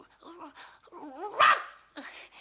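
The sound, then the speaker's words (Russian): Puppy barking and whimpering in short, high, voiced yaps, with one sharper, louder bark near the middle and a fainter yelp toward the end, over a low background. “Стой! Лаять буду!”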